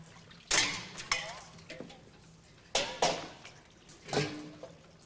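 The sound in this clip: Water splashes and clinks of dishes being washed up in a radio play, arriving in a few loud sloshing bursts with quieter dripping between and some speech mixed in.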